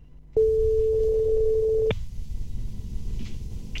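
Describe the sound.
A telephone tone as a call is dialed: one steady, fairly loud pitched beep lasting about one and a half seconds, cut off sharply and followed by a low hiss of line noise.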